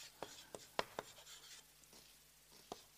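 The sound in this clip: Writing on a board during a lecture: a series of sharp taps and short scratchy strokes at an irregular pace, faint, with no talking.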